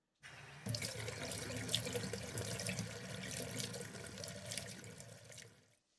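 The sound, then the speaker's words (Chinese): Bath water runs from a tap in a steady, hissing gush that starts abruptly, strengthens after a moment and holds evenly for about five seconds before cutting off. It is fairly quiet and heard alone, without voices. “你稍等一下，我帮你放洗澡水。”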